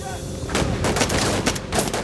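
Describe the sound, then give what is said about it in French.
Gunfire as Marines shoot a Japanese soldier disguised as a Marine: a rapid run of sharp, loud shots starting after a brief pause, cracking in an irregular series. “Trois Marines ont tiré et l'ont abattu. Comme les hommes le soupçonnaient, il s'agit d'un soldat japonais déguisé en Marine.”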